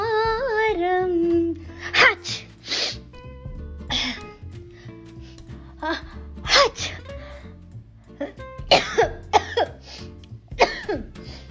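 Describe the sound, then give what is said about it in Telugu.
Coughing and sneezing from a person with a cold: many sharp, uneven bursts of varying loudness, coming after a brief sung phrase at the start, over a low sustained tone. “ఏంటిది దగ్గులు తుమ్ములును”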